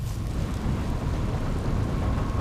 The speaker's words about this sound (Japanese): だから言ったろ、崩れるって。雨だ。